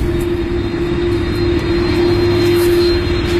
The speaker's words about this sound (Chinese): 伴随着这样的轰鸣声 ，Beluga 朝向我们滑了过来。